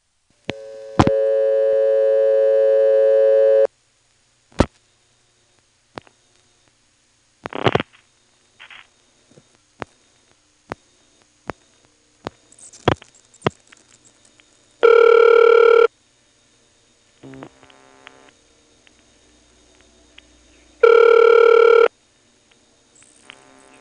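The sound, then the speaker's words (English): Switching clicks from a Pentaconta telephone exchange after the last digits are dialed: a series of sharp, isolated clicks and short buzzes, framed by a steady line tone at the start and two brief loud tone bursts later. “As we dial the last 4 digits, you don't hear any step noises, of course, and then some Pentaconta-ish clicks occur after the last digit.”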